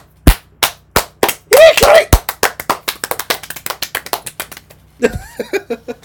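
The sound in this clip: Hands clapping in a long series of many sharp, loud claps that start spaced apart and speed up into a quick patter, with people talking briefly in between and near the end.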